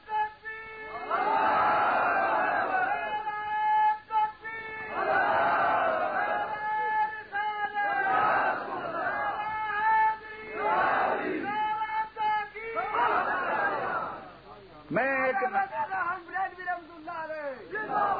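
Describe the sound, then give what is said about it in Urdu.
A large crowd chants a slogan, many voices shouting together in loud, repeated waves. Each wave rises and falls back at a fairly regular pace. “ایک دفعہ اگر اس سے زیادہ زور کے ساتھ آپ نعرہ سنا سکیں تو بڑی مہربانی”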